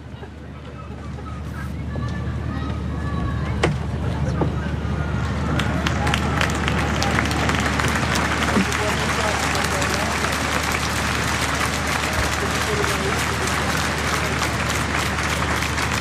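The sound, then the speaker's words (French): A large crowd cheers and applauds joyfully at a papal mass, a loud, dense roar of voices and clapping that swells within the first two seconds and then holds steady. “Et on entend la foule et la joie”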